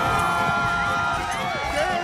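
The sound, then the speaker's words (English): A crowd cheers and applauds at a riding ring for women performing on horseback in matching pink dresses, a dense, continuous wash of noise that stays loud and steady throughout. “Let's give a warm round of applause to Valentina and Las Caballeras!”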